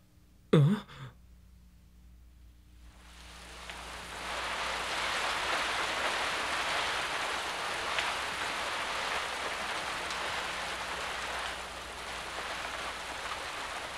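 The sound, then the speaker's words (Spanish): Steady rain falling, a soft continuous hiss that fades in after a brief quiet opening and holds evenly at a low level to the end. “No deja de llover.”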